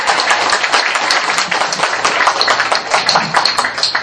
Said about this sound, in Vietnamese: vỗ tay đi